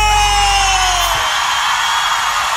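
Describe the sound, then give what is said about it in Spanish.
Mexican grito, a long, loud, high yell that slides steadily downward in pitch, ringing over a dense, loud backdrop. “¡Ánimo, gente! A bailar y a gozar. Ah. y ese grito mexicano.”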